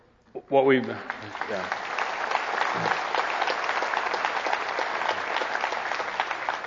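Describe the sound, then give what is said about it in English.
Audience clapping after a brief voice speaks, the applause then rising into a steady, even patter of many hands that continues to the end. “I will say it's even weird to kind of clap, right?”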